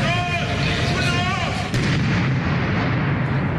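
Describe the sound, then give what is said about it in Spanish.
A controlled detonation of an explosive device found outside a court complex in Quito: one sharp blast near mid-clip within constant loud rushing noise, preceded by a wavering tonal sound. “La emergencia terminó con la detonación controlada del artefacto explosivo, que fue encontrado la madrugada de este jueves fuera del complejo judicial norte de Quito.”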